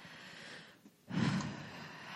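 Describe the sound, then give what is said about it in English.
A deep breath drawn in: after a brief quiet pause, a single strong, noisy inhale of rushing air starts and then trails into softer breathing. “So everyone with me, take a deep breath.”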